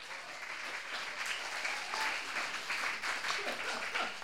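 Audience applause welcoming a comedian to the stage at a comedy show: steady, even clapping that holds at a moderate level throughout.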